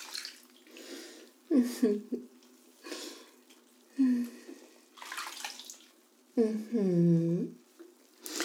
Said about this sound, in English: Why doesn't mommy wash you a little bit?